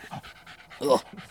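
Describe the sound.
A dog pants while playing keep-away with a ball: quick, breathy rhythmic puffs, with a louder, rougher burst near the middle.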